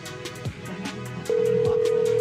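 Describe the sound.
A telephone voicemail tone: after a brief stretch of mixed sound, a loud, steady electronic beep comes in and holds at one unchanging pitch until the end.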